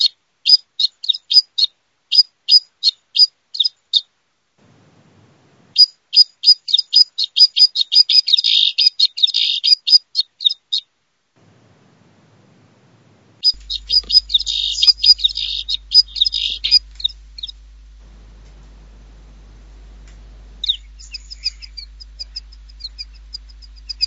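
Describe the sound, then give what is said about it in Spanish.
Song of a snowfinch (gorrión alpino): several bursts of rapid, high chirping notes, each phrase followed by a pause, clear and fairly loud with no voices. “Aquí tengo, ¿verdad? Vamos a ver el gorrión alpino.”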